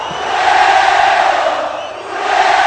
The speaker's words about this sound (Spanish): Cuando el público empieza a entonar cánticos europeos, que se oiga con huevo